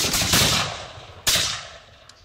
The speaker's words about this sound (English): Shoot the gun.